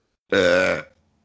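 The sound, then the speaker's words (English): A single loud, voiced burp lasting about half a second, deep and rumbling with a slightly falling tone, heard alone with silence before and after. “Did you really think I just burped?”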